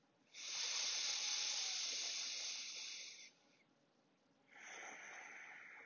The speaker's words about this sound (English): Exhale, back out your nose consciously. Listen to the sound of your breath.